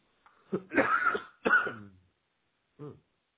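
Coughing and throat clearing from a person choking partway through a sentence: a few harsh, rough bursts packed closely together, then a pause before one shorter, fainter cough.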